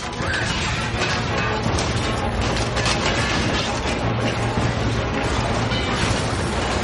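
Many magically multiplying objects crash and clatter onto a vault floor in a dense, loud, continuous jumble of metallic impacts and rattling that never lets up.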